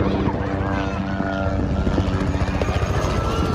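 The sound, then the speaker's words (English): Helicopter engine and rotor during a ride, a loud, steady thrumming chop with a droning whine above it, holding constant throughout. “it was time to go up for a helicopter ride”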